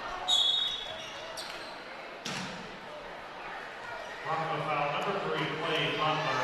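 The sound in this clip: A basketball is dribbled on the court during a regular-season game as a player brings it into the front court, with faint bounces under a commentator's voice.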